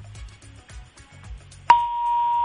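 A telephone line tone sounds on an incoming call to a radio show: after low, muffled sounds, a sharp click is followed by a steady, high-pitched tone that holds unbroken to the end.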